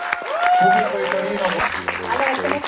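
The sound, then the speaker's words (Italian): Applause from an audience greets a female film director at a screening before a Q&A, clapping steady under voices that talk over it for a couple of seconds. “facciamo un applauso alla regista di questo film, facciamoci sentire un attimo.”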